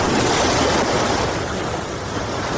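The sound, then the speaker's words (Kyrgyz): Waves wash onto a municipal lake beach at Cholpon-Ata on Issyk-Kul in a dense, steady roar of surf that stays loud and continuous without distinct breaks. “Бул Чолпонта шаардык муниципалдык пляждардын бири.”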